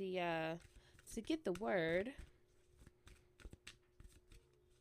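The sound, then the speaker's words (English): Tarot cards being shuffled: a short vocal sound at the start, then a run of quick, papery riffles and light snaps in an uneven rhythm. “Let's pull out the tarot cards.”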